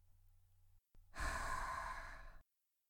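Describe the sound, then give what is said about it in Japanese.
A single long, airy breath during a guided breathing exercise, a soft rushing exhale-like sound lasting over a second, heard alone without talk over a faint low hum. “息を吸って。うん、そう。吐いて。”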